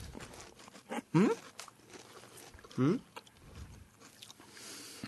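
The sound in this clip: Crunching bites of a Calbee snack: two short, loud crisp crunches stand out against faint voices and low background noise.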